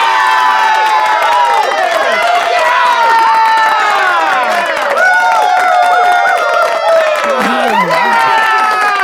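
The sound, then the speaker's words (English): Canned studio-audience cheering welcoming a guest, a loud, continuous wash of many whooping and shouting voices with some applause, sustained at high level for about nine seconds. “Maury, thank you for that warm, canned welcome.”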